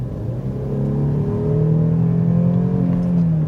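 A car with a V6 six-cylinder engine accelerates in a loud, steady drone whose low harmonics climb gradually in pitch as the revs build.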